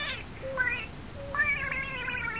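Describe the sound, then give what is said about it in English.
A small pet cat meows a few times, with short, wavering high-pitched cries and a longer drawn-out meow at the end, fairly faint. “And now, folks, I want you to meet our little cat.”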